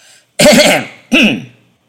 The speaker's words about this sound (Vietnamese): Phong Trần Tứ Khách cố tạo ra vẻ trịnh trọng, chậm rãi ho khan lên một tiếng rồi mới cất lời.